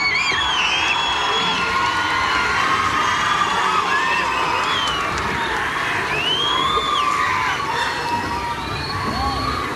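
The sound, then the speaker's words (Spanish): Festival crowd at the Expo Mimbre in Chimbarongo cheering for a singer arriving on stage, a dense steady roar with high shouts and whoops rising out of it, loud throughout. “por supuesto, recibirla con un fuerte aplauso, porque ya está acá en Chimbarongo.”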